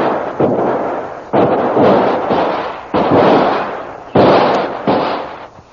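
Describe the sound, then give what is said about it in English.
Gunshots ring out as two shooters exchange fire in a shootout. A handful of loud, sharp reports come at irregular intervals about a second apart, and each one is followed by a booming, rumbling decay. “As Lynn breaks away from her captor, both the savage and Kolo start shooting at each other.”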